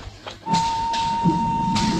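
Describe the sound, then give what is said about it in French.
A faint train whistle as a train starts to pull away: a thin, steady high tone held for about one and a half seconds, with soft bursts of hiss around it. “un sifflet loin devant nous déchire faiblement le silence. Insensiblement, le train s'ébranle, avance, s'en va enfin,”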